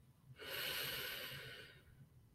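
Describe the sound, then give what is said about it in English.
A person takes a single slow, deep breath in during a guided mindfulness pause. The soft, airy inhale swells and fades over about a second, quiet and alone. “Close your eyes and take a deep breath”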